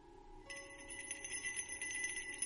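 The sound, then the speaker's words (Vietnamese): A bell jingles continuously after a brief quiet start, with bright, tinkling high tones ringing on steadily and evenly at moderate loudness, with no voices. “Cô nhổm người lên nghe cho rõ thì phát hiện ấy là cái tiếng chuông. Nó đang rung leng ca leng keng.”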